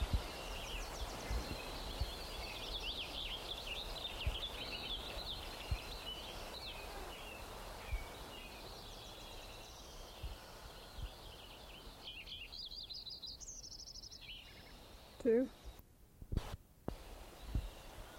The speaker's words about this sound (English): Lincoln Sparrow number 2.